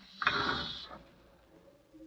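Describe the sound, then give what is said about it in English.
Brief mechanical rattle and whir from an express elevator going down in a Midtown Manhattan office building: one short, faint burst that quickly dies away into a low, quiet hum. “21, going down, please. Express car. Going down.”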